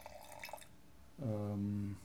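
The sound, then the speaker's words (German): Wine poured from a decanter into glasses: after a quiet start, a short, faint pour with a ringing filling tone lasts just under a second. “Jetzt darf ich mal aus dem Dekanter euch einen Schluck unbedingt einschenken.”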